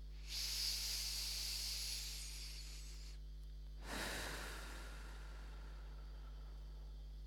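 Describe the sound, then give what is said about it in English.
A deep breath drawn in through the nose and let out through the mouth: a long hissing inhale, a short pause, then a briefer, breathier exhale, over a faint steady low hum. “take a big deep breath in through the nose and out through the mouth”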